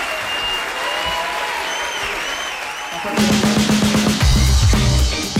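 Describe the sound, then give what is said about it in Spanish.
A crowd applauds with dense clapping and some whistling. The applause grows louder and more rhythmic in its second half, with no talk over it. “Fuerte el aplauso para”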